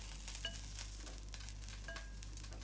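Soft, steady sizzling of fried rice cooking in a pan, a faint hiss scattered with small crackles and stirring scrapes, with no talking.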